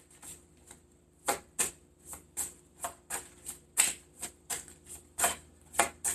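Cards shuffled to draw one for Virgo: many crisp, quiet riffling snaps in an irregular rhythm, with short pauses between bursts.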